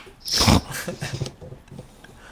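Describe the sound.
A small dog weighing about ten pounds gives a short, sharp snorting huff, followed by a few faint snuffling breaths.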